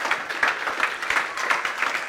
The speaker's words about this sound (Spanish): Démosle un aplauso al Señor de agradecimiento.